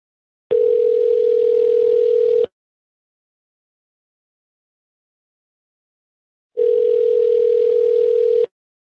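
A telephone rings unanswered on the line: two long, steady, loud electronic ring tones, each about two seconds, separated by a stretch of silence.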